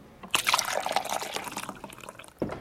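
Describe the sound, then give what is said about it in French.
Hot water is poured onto dried verbena in a shaker or teapot, a splashing, gurgling stream running for about two seconds, thinning out before one last short splash. “Dans un shaker ou une théière, il faut mettre à peu près 3 fois plus de verveine que si vous faisiez une verveine juste pour une tasse. Je rajoute de l'eau chaude.”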